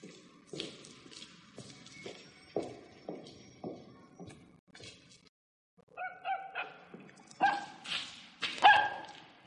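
A dog barks repeatedly as it crosses a gallery, with a run of sharp, loud barks, a brief pause, then more yips and barks at an uneven rhythm.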